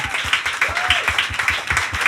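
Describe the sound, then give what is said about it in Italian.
An audience applauds a guest in an even, rhythmic beat of claps that holds steady throughout, moderately loud. “Un applauso!”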